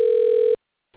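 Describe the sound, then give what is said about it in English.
A steady telephone tone on a call being dialed, one loud, buzzy mid-pitched beep of about half a second, then silence and a faint rough sound at the very end. “so he wanted me to call him. Okay. We're in dialing again.”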